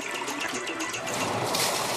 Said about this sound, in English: flush the ping pong ball. I repeat, flush the ping pong ball.